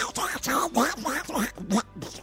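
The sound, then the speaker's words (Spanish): A voice imitates a duck, speaking in a raspy, quacking cartoon-duck style. It comes in a few short bursts with brief pauses between them. “Uy, el Pato Donald ahora es miembro de este elenco.”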